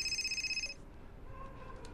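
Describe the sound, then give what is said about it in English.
A telephone ringing at home with a rapid, high-pitched warbling electronic trill. It lasts under a second, then cuts off and leaves only faint background noise. “then dials a call”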